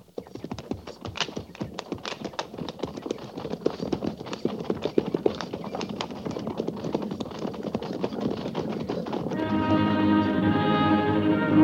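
Horses of a cavalry troop trot: a dense, steady run of hoof clip-clops continues throughout, and a sustained musical tone swells in near the end.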